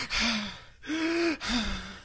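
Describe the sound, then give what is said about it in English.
Three loud, voiced gasping breaths follow each other quickly as a person hyperventilates in panic, each one a strained, throaty pull of air with short gaps between. “I'm hyperventilating.”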